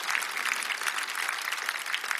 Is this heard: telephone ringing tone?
no